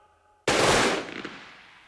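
Gunfire from a firing squad at an execution: one loud, abrupt volley bursts out of near silence, holds briefly, then fades in a long decaying tail.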